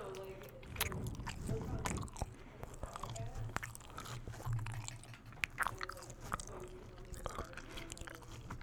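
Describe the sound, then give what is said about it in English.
Close ASMR eating of a snack straight out of its package: many crisp, crunchy bites and wet chewing sounds in an irregular rhythm, with occasional sharper cracks and soft mouth noises between them. “I'm going to give LPD some ASMR. It's out of the package. I'm going to now eat it.”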